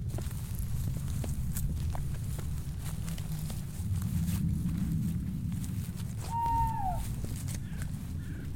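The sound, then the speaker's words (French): Footsteps walking outdoors at night in the Millevaches starry-sky reserve, many fairly faint, steady steps forming a continuous low shuffle throughout. “Allez, allons marcher un petit peu.”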